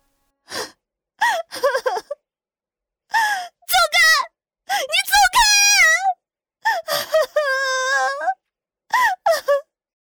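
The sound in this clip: A woman sobs violently with her face pressed against a tree trunk, her voice trembling: broken bursts of wailing, gasping sobs with quavering, wavering pitch, separated by short silences.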